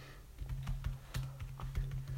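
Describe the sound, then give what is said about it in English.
Typing on a computer keyboard as a tweet is entered: many quick, irregular keystroke clicks with a steady low hum running beneath them. “Type in B.O.B.'s tweet. You type it in.”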